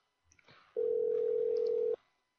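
A single steady electronic telephone tone, held for about a second at one even pitch, comes during a repeat attempt to call someone. A few faint brief clicks and noises precede it, and it then cuts off cleanly.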